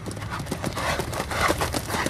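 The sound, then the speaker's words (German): Horse hooves pounding under a Pony Express rider, a rapid, continuous drumming of hoofbeats that stays loud and steady throughout. “Mit 14 Jahren wurde er Reiter beim Pony Express.”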